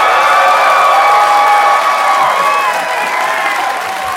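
An audience welcomes a guest onto a show with loud applause, cheering and scattered whoops. The dense, sustained clapping and shouting hold strong, then slowly taper near the end.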